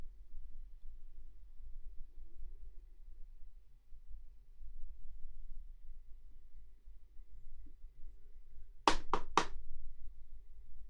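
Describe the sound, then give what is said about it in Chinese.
Three quick knocks on a door in close succession, sharp and fairly faint, heard alone after a long stretch of near-silence with low background hum. “有人敲门，应该是主人来了，我去看看。”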